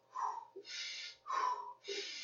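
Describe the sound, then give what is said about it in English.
Hard, fast breathing, in through the nose and out through the mouth: two cycles, each a short sniffing nasal inhale followed by a longer, hissing mouth exhale, in an even rhythm with no talk. “In through the nose, out through the mouth. You're looking for a faster inhale and a faster exhale.”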